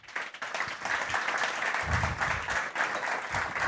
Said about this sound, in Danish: og så skal jeg give en rigtig stor hånd til Karl Johan Poulsen, som er direktør for Banegården.